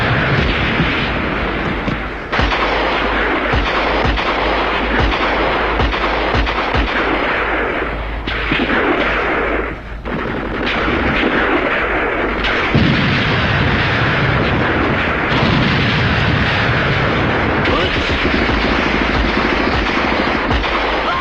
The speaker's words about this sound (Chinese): 炮声震地，杀声冲天。